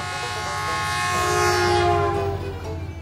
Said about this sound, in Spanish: Ojo el tren que se vino, ojo que se vino el tren.